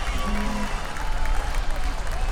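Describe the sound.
Audience applause and cheering at a concert, a dense, continuous wash of crowd noise over a low rumble that stays at a steady, fairly loud level throughout.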